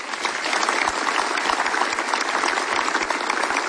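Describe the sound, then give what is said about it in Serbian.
Audience applause for festival organizers at a song festival, dense and steady clapping that holds at an even loudness for the whole stretch, with no voices over it. “Aplauzi za organizatore.”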